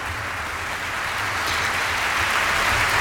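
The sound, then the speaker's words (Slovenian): Enthusiastic applause from an opera audience for the singers: thick, continuous clapping from many hands that swells slightly louder toward the end over a low steady hum. “Slišimo navdušen aplavz za”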